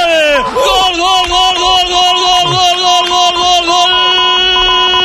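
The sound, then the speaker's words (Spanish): Villarreal away fans cheer at El Sardinero: a loud, sustained stadium roar with held, shouting voices that stays steady throughout. “lo celebran los aficionados del Villarreal desplazados, hay alguno que otro y en el Sardinero, Unos cuantos en la curva sur”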